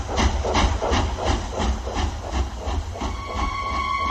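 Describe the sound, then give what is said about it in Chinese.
Steam train departing, with regular rhythmic chuffs and hiss at moderate loudness, and a faint steady whistle-like tone joining in the last second. “随着汽笛的鸣叫，火车开走”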